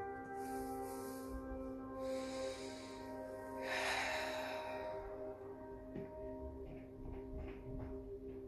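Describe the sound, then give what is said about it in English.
Slow, deep breaths taken during a guided relaxation, a few faint drawn-in inhales and airy exhales over a soft steady hum. “We're just gonna take a few deep breaths and come into the present moment.”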